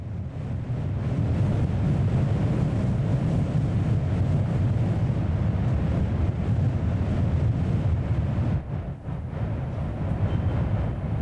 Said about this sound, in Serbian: I unutra je vetar. Snimam, vetar u vratima, u pukotinama, dodirujem, lupkam po kamenu, osluškujem.